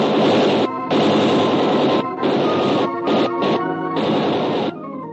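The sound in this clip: Gunshots fired in a radio drama scene aboard a ship smuggling guns: a loud, harsh barrage of rapid cracking bursts in several long volleys, broken by short gaps, that ends abruptly.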